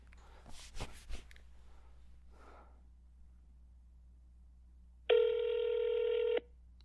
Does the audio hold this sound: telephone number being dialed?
yes